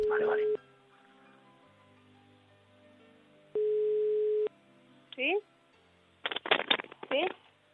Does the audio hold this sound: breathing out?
no